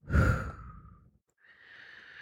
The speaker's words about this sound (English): Now relax. Breathe through your nose and out of your mouth.